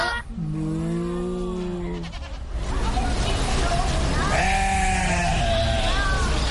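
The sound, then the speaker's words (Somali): A sheep bleats twice, each call long, wavering and nasal, with a gap between them and steady background noise underneath. “In English they are colored sheep. Soomaali ahaanna waxay noqonaysaa ido.”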